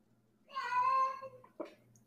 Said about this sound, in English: What the hell was that? That's the cat. My cat had a few words to say.